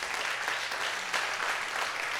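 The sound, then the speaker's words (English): A church audience applauds in praise of Jesus during a service, with dense, steady clapping that fills the whole stretch evenly and has no talk over it. “Let's take about 10 seconds and give Jesus a hand praise.”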